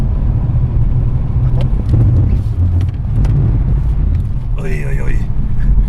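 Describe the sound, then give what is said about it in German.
A car accelerating hard toward a cone lane during a driving-stability test, with a loud, steady engine roar and wind rush throughout and a brief higher whine near the end. “Mit einer gefühlt enormen Beschleunigung rasen wir auf die Pylonengasse zu.”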